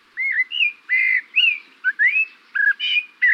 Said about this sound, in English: This bird song seems familiar, intriguing. It's the song of the Eurasian blackbird.